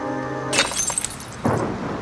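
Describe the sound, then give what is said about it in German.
A glass full of milk rolls off a kitchen counter and shatters with a sharp, bright crash and scattered tinkling fragments, then a second smaller crash of breaking glass. “Ich stieß das Milchglas um, das zur Seite rollte und über den Rand des Küchenboards fiel.”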